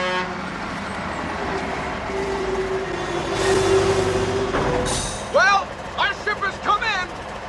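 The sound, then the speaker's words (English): A large red transport truck approaches down a street, its engine rumble swelling steadily louder, with a sustained horn-like tone in the middle, followed by voices talking. “A large red transport truck approaches down the street.”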